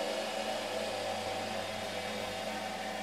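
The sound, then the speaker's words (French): Steady mechanical drone of a yarn twisting machine (retordeuse) assembling single threads into two-ply yarn, a constant hum with a low tonal buzz that stays even and unbroken throughout. “Et donc là, on est devant la retordeuse, donc la machine qui assemble les solitaires.”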